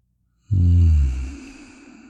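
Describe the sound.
An adult's breath out, taken slowly with a baby, begins abruptly after half a second of silence as a voiced, sighing exhale, then trails off softly.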